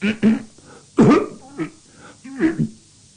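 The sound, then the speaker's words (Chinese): Repeated coughing comes from behind a curtain, with several hoarse, voiced coughs and throat-clearing bursts at uneven intervals. A voice performs the coughs. “在龙帘后头直咳嗽”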